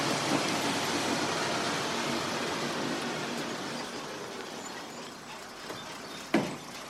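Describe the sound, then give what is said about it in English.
Engine rumble of a blue police academy bus pulling up to a gate: a steady, broad hum that holds evenly throughout, with a brief sharper knock near the end. “The next morning, a blue police academy bus pulls up to a gate.”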